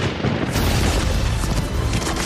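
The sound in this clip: Gunfire and explosions from a shooter video game: a dense, loud, unbroken roar of booms and rapid shots that fills the whole clip without a clear pause.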